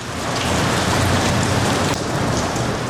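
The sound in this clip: Heavy pouring rain: a dense, steady hiss of downpour that holds at an even, loud level throughout, with no voices.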